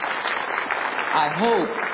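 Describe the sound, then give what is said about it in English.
Applause from a church audience after an orchestra's music: a steady, hissing rush of many hands clapping, with a voice briefly rising over it near the end. “I understand that we applaud to encourage, you know, we applaud to say, you know, good job and that kind of thing.”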